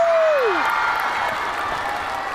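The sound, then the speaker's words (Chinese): An audience applauding the music arrangement team at a music show, a broad, steady roar of clapping that holds at an even level throughout, with a brief voice tone at the very start. “大家给我们的编曲天团鼓掌好不好？”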